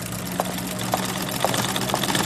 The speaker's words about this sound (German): Hör sofort auf zu nähen.